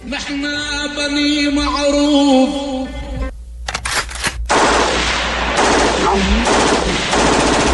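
Machine gun fire in a Druze war song: loud sung music with sustained melody gives way after a brief pause to rapid, dense bursts of automatic gunfire that continue to the end.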